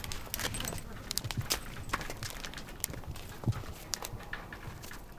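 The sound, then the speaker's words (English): Reindeer hooves click as the animals walk, making many sharp, dry clicks in an irregular rhythm over a rough, steady background. “They click when they walk, which is very unique to reindeer.”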